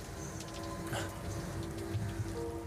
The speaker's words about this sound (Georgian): თვალებში წვიმა ჩაგდის.